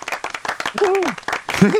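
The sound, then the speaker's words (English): Audience applause, a quick patter of many hands clapping, with a voice talking over it and carrying on after the clapping thins. “Round of applause for Matthew.”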